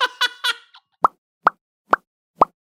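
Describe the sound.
Four short, bright bubble pops, the cartoon-style effect common in animation sound design, evenly spaced and cleanly separated, following a brief voiced sound at the start.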